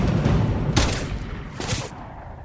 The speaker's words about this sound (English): And he shot him.